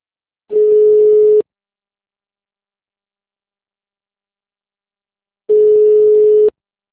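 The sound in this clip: Telephone signalling tone on a dropped call: two steady, mid-pitched beeps, each lasting about a second and spaced roughly five seconds apart, with silence in between.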